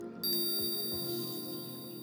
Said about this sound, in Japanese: 催眠ベルを聞くたびに頭の中にもやがかかる。